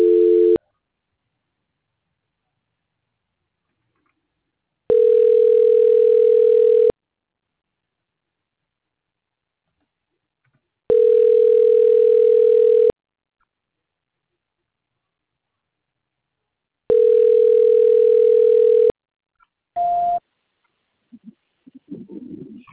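Ringback tone of an unanswered phone call during a transfer to São Paulo: a steady mid-pitched tone repeating in even two-second pulses with long silent gaps, three full rings after a clipped one, then a short higher beep and faint noise.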